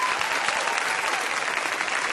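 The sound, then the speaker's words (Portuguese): An audience applauds. Many hands clap in an even, dense burst that keeps a steady level throughout. “Rapaz, pode aplaudir.”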